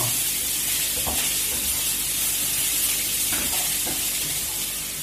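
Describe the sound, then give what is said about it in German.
Loud, steady sizzling of onions and dark spices including cumin frying in a pan as lentils go in, with a few brief stirring scrapes over the continuous hiss and no talk. “hier hast also das Gewürz, das dunkle Gewürz von den Zwiebeln und jetzt kommen die Linsen drauf.”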